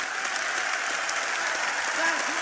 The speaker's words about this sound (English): Massive cheers from the Labour faithful in the hall.